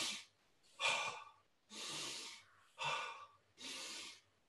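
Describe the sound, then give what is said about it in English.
Five forceful breaths through the nose, done as rapid power breathing for a morning wake-up routine. Each is a loud, airy, hissing rush with short pauses between, in a steady rhythm. “you do more power breathing. Yeah. Into your nose.”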